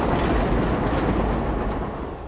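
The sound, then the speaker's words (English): A passing train rumbles as a broad, heavy roar that stays loud and then eases slightly toward the end. “And the train passes.”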